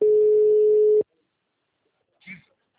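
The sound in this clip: A telephone tone follows a dropped call: one loud, steady, mid-pitched beep of about a second that stops abruptly, followed by silence and a brief faint vocal sound.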